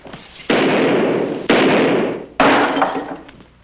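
Gunshots from a gun in a quick-draw duel: three loud, sharp blasts about a second apart, each trailing off in a long, decaying roar. No voices.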